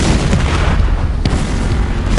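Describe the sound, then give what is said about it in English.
Deep booming blasts of a mortar firing finned shells, launched from a tugboat, ring out over a constant rough rumble, with a sharper thump standing out near the middle. “The tugs a half mile on either side of them fired their mortars as well.”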